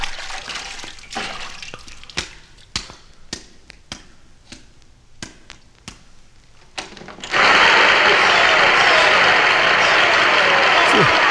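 Applause from an audience on a record erupts suddenly as a loud, sustained wash of clapping. It follows a series of sharp, sparse clicks and taps and continues to the end.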